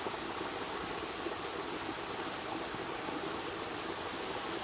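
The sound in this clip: Outdoor morning ambience at a pond, a steady, even rushing hiss like flowing water that stays unchanged with no distinct events.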